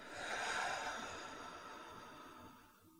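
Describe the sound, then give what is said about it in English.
One slow breath during a guided breathing exercise, drawn in and let out as a soft, airy rush that swells and then eases away. “Do that one more time. Let's breathe in and out.”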